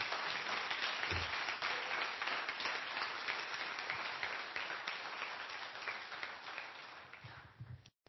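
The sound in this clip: Audience applause closes a talk at a conference: dense, steady clapping from many hands that holds for several seconds and thins out just before the end.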